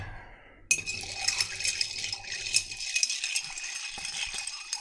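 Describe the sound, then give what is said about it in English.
Ice and glass clinking as a drink is stirred in a video game. A dense, bright rattle of many small clicks starts abruptly and continues for about four seconds with no talk. “And we're going to stir this drink.”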